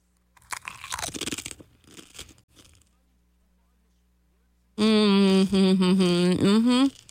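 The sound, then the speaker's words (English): Crunching and chewing of a Spicy Loaded Nachos Medium Spice snack: several bursts of crisp crunches, then a pause before a voice is heard. “So let's try this Spicy Loaded Nachos soccer snack.”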